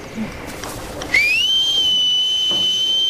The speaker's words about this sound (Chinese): 下班的时候我一个口哨，咱这些鹿就会乖乖的排着队回去睡觉了。你听着啊